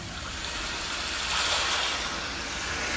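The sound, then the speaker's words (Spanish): Sea waves wash in a steady, broad rush of surf that swells slightly toward the middle before settling back to an even roar, with no voices. “Vamos a culminar este recorrido con la música, el sonido del mar, masajeando, acariciando mi cara.”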